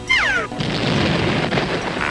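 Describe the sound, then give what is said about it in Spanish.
A cartoon hand grenade explosion: a short falling whistle drops in pitch, then a loud, harsh burst of rushing noise holds steady to the end. “Solo tengo que deshacerme de esta granada de mano y nos iremos a casa.”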